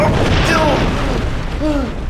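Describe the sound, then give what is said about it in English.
A heavy stone block weighing several hundred pounds collapses from a ceiling and breaks into rubble, making a loud, sustained rumbling boom with dense low roaring noise throughout. “The ground started to vibrate harshly under Senshin's body, and a stone block weighing several hundred pounds collapsed from the ceiling, exploding into rubble a few feet from Senshin.”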